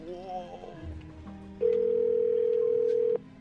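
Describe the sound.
A steady telephone ringing tone sounds once for about a second and a half while a call is dialled, preceded by faint voices and background noise.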